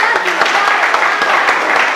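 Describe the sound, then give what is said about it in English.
A church audience gives a quick round of applause for a group of children. Brisk, dense hand-clapping runs loud and even from start to finish. “Let's give them a quick round of applause.”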